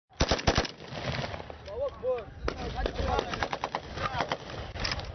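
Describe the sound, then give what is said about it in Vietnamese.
Celebratory gunfire from former rebels amid the ruins of an ousted leader's palace in Libya: sharp bursts of rapid shots open loudly, then shouting voices mix with scattered further shots. “các cựu phiến quân nổ súng ăn mừng”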